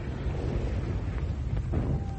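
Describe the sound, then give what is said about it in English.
Salvo of Russian rocket launchers: a continuous, dense, low rumbling roar that holds steady throughout, with no clearly separate blasts standing out. “Russian rocket launchers. We call them Stalin organs. We probably brought them up to reinforce the tanks.”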